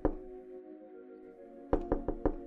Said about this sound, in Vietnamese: Tiếng gõ cửa ở phía trước bất ngờ vang lên